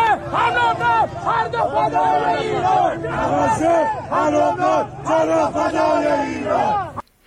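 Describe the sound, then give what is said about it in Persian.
Loud crowd chanting anti-government protest slogans at Tehran's fruit and vegetable market, with many voices shouting together in a steady run of repeated rhythmic phrases that stops abruptly at the end. “صدای که از این شعارها رو میتونیم از میدان میوه و تره‌بار تهران بشنویم.”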